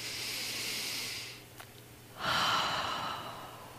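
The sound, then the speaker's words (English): A deep, slow cleansing breath during a guided breathing exercise: a soft, airy hiss of inhaling, a brief pause, then a fuller, longer exhale. The breathing is heard alone, with no talk. “taking a good, deep, cleansing, energizing breath together”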